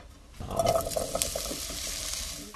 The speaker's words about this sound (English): I'm going to get the potatoes frying in there, and because they're not parboiled, they'll take a little while to cook, so I'll start those first.